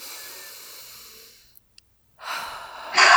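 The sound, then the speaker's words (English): A deep breath taken slowly: a soft, airy stretch of breathing, a short silence, then a stronger, rushing breath that grows louder at the end. “Okay. Deep breath.”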